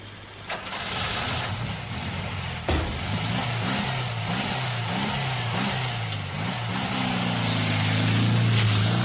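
A taxi's engine drones as the car drives away at night. A steady, low motor hum wavers in pitch and climbs toward the end, with one dull thud early on.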